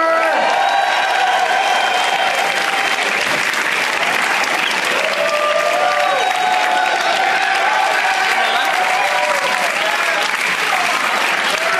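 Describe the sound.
Loud, dense audience applause as comedians are welcomed on stage, a continuous wash of clapping with some crowd voices mixed in, holding steady throughout.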